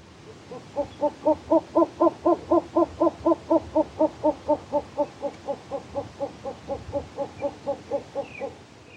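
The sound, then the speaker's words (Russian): A short-eared owl gives a long, evenly spaced series of low, hollow hoots, roughly thirty in all. They swell in loudness over the first seconds and then gradually fade, alone against a quiet background. “Болотная сова.”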